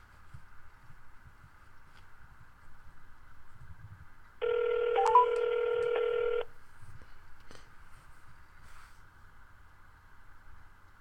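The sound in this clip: A telephone ringback tone while a call is being placed: one steady electronic ring of about two seconds rises clearly above a faint low hum, then stops.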